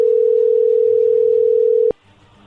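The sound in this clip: A telephone tone while a call is placed: one steady, unbroken, mid-pitched beep lasting nearly two seconds, cut off by a click, then a faint low rumble.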